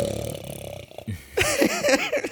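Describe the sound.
A voice imitates loud snoring with a rough, buzzing throat rattle that pulses for about a second, followed by more voiced, wavering vocal sounds.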